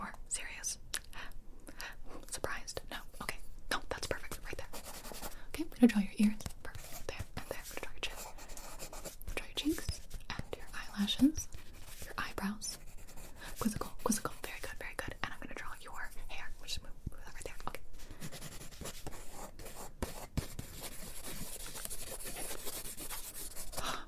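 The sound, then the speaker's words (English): Pencil scratching and rubbing across paper while a portrait of a face is drawn, a continuous fine rasp with small strokes throughout, heard under soft whispering. “Okay, I'm gonna draw your head. I'm gonna draw your eyes. Look at me, look at me, look at me. I'm gonna draw your nose.”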